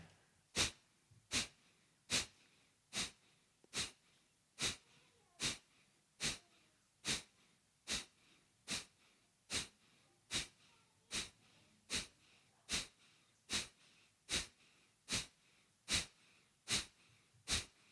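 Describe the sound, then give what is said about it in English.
Rapid, forceful breath-of-fire exhalations during a breathing exercise: many sharp, even puffs of air in a steady, quick rhythm, a little faster than one per second, with quiet pauses between them. “So the breath of fire we're about to do, you can penetrate that tension.”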